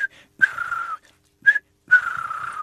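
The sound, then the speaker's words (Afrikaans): A person whistles an imitation of a turtle dove call: two phrases, each a short, high note followed by a longer, steady, lower note. “En hulle tortelduifies maak amper soos ons naguiltjies. So hulle tortelduifies is iets van...”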